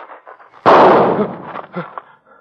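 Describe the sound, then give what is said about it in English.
A single pistol shot in a duel cracks out sharply and loud, then decays in a rumbling tail. “Are you hit? No, I'm all right. Bullet went through my hat.”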